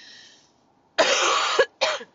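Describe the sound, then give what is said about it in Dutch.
Coughing from someone who has choked slightly: a long harsh burst followed by a shorter second one, fairly loud and alone, with no speech. “Sorry, ik uh, verslik me een beetje.”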